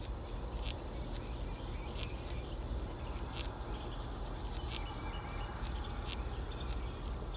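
A chorus of insects fills a suburban backyard in Tennessee by an old white pine. A steady high-pitched trill runs throughout, with faint pulsing calls layered over low background rumble.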